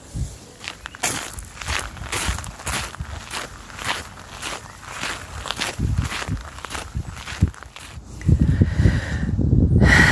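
Footsteps climbing castle stairs outdoors: many steady, rhythmic steps with light scuffing and rustle, continuing throughout and growing heavier and louder near the end.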